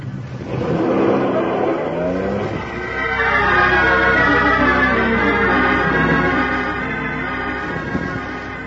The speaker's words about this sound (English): The drive was fast. We swung off the main road on the island and headed up the private one to the Forbes estate at about 2:30 in the afternoon.